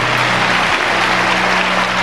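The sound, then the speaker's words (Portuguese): A strong round of applause at a church service: a loud, even wash of many hands clapping that holds steady throughout, with a low constant hum beneath it. “Vou dar uma salva de palmas forte.”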